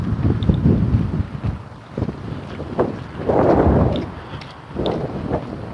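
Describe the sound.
Wind blowing outdoors on a breezy day, buffeting the microphone with low, rumbling gusts that swell and fade, strongest around the middle and again near the end.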